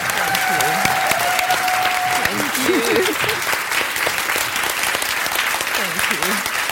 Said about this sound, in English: please join me in one last round of applause for Tsitsi Dangaremba and Maza Magister.